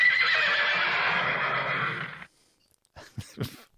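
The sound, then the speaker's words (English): A horse neighs in one long, loud whinny that lasts about two seconds and then stops, followed by silence and a few short, sharp bursts of sound. “Sorry. A horse.”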